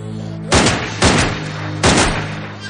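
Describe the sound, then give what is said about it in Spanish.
Pistol gunshots in a dramatic film scene: three loud, sharp bangs with brief ringing tails, spaced irregularly over a few seconds. “Uno de ellos lleva una pistola. Se acerca a Hoffman y le dispara en la cabeza.”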